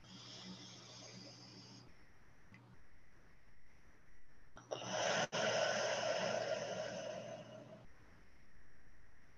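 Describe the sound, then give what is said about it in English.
A deep breath drawn in during a guided relaxation moment: a loud, breathy rush of air lasting a few seconds, with a steady low hum running underneath throughout. “take a moment and take a deep breath in with me”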